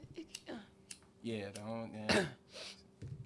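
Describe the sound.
Throat clearing and coughing from something like a bug caught in the throat: a rough, voiced rasping stretch, then a sharp, loud burst, with a few faint clicks around it.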